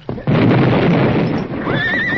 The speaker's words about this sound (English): Better hold the horses. The blast will scare them, Pete.